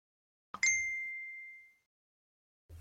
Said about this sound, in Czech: To přišla mi zpráva.